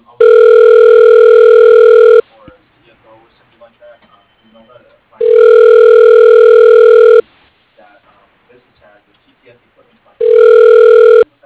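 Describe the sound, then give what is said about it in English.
A telephone ringback tone on an outgoing call placed by a bank's phone system. Three loud, steady buzzing rings each last about two seconds, separated by quiet gaps of roughly three seconds. “Okay, dialing.”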